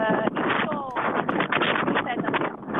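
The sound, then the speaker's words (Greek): Strong wind at a wildfire scene beside a road, a loud continuous roar buffeting the microphone, with a voice faintly talking underneath. “ακούμε όμως, καταλαβαίνουμε και το πόσο πολύ φυσάει, δηλαδή η ένταση των ανέμων πρέπει να είναι πάνω από 5-6”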